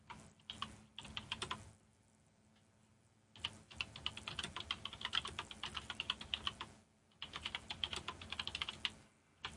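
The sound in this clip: Computer keyboard typing comes in three bursts of rapid, clacking keystrokes separated by short pauses, quiet and with no talking.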